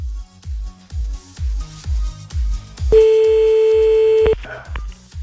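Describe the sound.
Ringing tone of an outgoing prank phone call: one steady, mid-pitched electronic tone lasting over a second, heard over a loud, regular thumping music beat.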